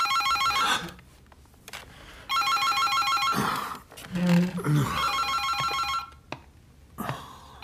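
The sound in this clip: A telephone bell rings in several loud, jangling bursts separated by quieter pauses that hold low rumbling sounds.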